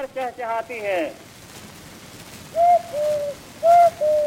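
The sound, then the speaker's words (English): Whistled bird imitation from an early 20th-century record: a brief burst of warbling, voice-like chirps, a pause, then two pairs of clear, steady whistled notes, each pair a short bright note followed by a slightly lower, longer one. “there were recordings of people imitating animals. In particular, there was a genre of people whistling in imitation of birds.”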